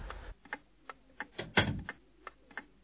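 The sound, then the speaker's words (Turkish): Knocking on a house door late at night: a run of several sharp, dry raps at an uneven pace, with one heavier knock in the middle, heard alone. “Kapı çalıyor babacığım.”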